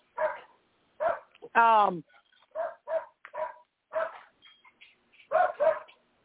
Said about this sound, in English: Your dog is excited. My dog will bite his dog because he's barking incessantly.